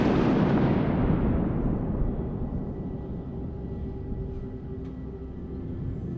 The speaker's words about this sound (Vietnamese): sấm chớp nổi lên ầm ầm, xé nát cả bầu trời